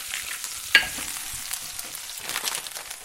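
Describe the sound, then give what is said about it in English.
Steady, crackling sizzle of feta frying in hot vegetable oil in a frying pan, broad and even throughout, with one sharp tap early on. “I just heated up a little bit of vegetable oil in a frying pan. And now I'm adding... You're frying the feta.”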